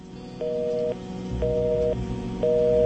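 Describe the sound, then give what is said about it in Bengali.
Telephone busy tone after a phone call disconnects: three evenly spaced, steady mid-pitched beeps, each about half a second long, over a low background hum. “ফোনটা disconnect হয়েছে”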